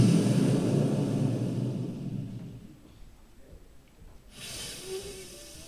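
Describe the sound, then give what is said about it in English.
Hard, sustained blowing into a handheld device: a loud rushing breath that fades over about three seconds, then a quiet stretch and a softer hiss near the end. “So I pick up my device, I take a deep breath in, and then you blow.”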